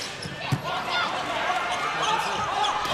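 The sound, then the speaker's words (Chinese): One sharp ball strike marks a volleyball serve in a match. The thud stands out under a commentator's steady talk and the murmur of the arena crowd. “张子萱来发球”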